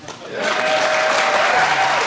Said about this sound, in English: That round of applause came as he again brandished newspapers with favourable headlines.